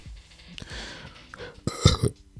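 A burp after drinking Fanta: one loud, throaty eructation bursts out after a stretch of soft rustling and breathing, then trails off quickly.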